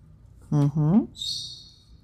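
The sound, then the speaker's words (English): A small marker pen with a wispy tip scratches out a single stroke: a soft, hissy squeak lasting under a second, just after a short hummed vocal sound. “I like writing with this little marker. It's actually fun. It's kind of got like a little wispy end. And you can kind of do little flicks and things like that.”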